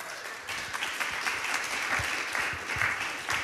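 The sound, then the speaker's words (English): Audience applause welcoming a speaker at a church service: dense, continuous clapping fills the whole stretch at an even, moderate loudness, with scattered sharper claps standing out. “So let's give it up for him.”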